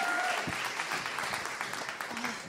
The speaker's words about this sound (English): One more round of applause for Amanda.